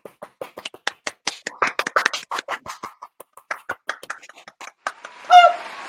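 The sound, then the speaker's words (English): Polite golf clap: a few people patting their hands softly in an uneven, sparse patter of many light claps, ending with a short whooping voice. “Can we give the golf clap? Golf clap.”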